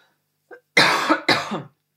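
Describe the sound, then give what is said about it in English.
A person coughs twice in close succession, two loud, rough bursts standing alone with quiet around them. “So I'm just going to cough”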